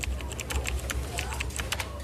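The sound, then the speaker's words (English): Typing on a computer keyboard: many quick, light key clicks in an irregular rhythm over a steady low hum. “type it in.”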